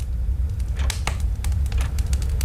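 Fire crackles inside a wood stove, with irregular sharp pops and snaps over a low, steady rumble, fairly loud and with no talk.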